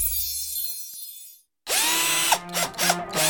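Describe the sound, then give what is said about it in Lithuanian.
Power tool sounds in an ad for a tool shop selling DCK, DeWalt and Irwin tools: a hiss over a low hum, a brief silence, then a loud, whining drill motor with rising and falling pitch and a few ratcheting bursts. “Reikia patikimų įrankių statyboms, remontui ar sodui? Užsuk į lekonas.lt. Čia rasi DCK, DeWalt, Irwin Specialist ir kitų gamintojų įrankius.”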